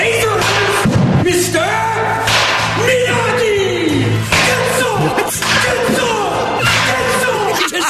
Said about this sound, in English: He's hit ball after ball. He's got a wood bat, so he's not relying on the aluminum.